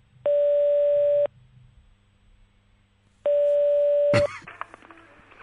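Telephone tone of an outgoing call: two steady, single-pitch tones about one second long, separated by a gap of roughly two seconds. A click and brief line noise cut off the second tone, and a faint hum runs underneath.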